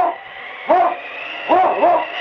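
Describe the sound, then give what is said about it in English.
A sled team's lead dog barks on a snow-covered trail in the wild Northwest: three loud yelping barks, one alone and then two close together. “It's Yukon King, swiftest and strongest lead dog of the Northwest, blazing the trail for Sergeant Preston of the Northwest Mounted Police”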